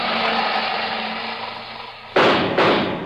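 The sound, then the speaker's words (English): Two revolver shots ring out as sudden loud bursts about half a second apart, following a steady rushing, hissing roar. “That's 2 shots. He's got a revolver that holds 6. 4 to go.”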